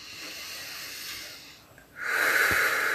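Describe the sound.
Deep breath drawn into the belly during a guided relaxation exercise: a soft, airy rush that dips briefly, then swells into a louder, fuller breathy hiss lasting about a second.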